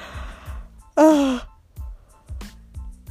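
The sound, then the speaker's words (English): A single breathy, voiced yawn from a person lying down, lasting under half a second and louder than the quiet low thumps before and after it. “excuse me, y'all, damn, y'all know I'm always yawning in my damn podcast.”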